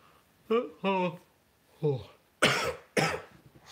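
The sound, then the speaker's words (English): Two harsh, explosive coughs from a person with a lingering cough while recovering from illness. They come near the end, after a few brief voiced throat sounds. “That cough is still there. Driving me nuts.”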